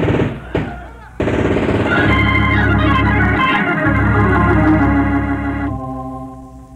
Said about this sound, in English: Return their fire! You get those boxes below! One stray bullet could blow us all to kingdom come!